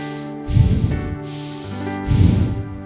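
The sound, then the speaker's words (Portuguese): A person breathes in and out in two loud, breathy bursts separated by a short pause, with a low tonal background underneath. “Sabe quantas vezes você respira por dia? Sabe quantas vezes você faz assim, ó?”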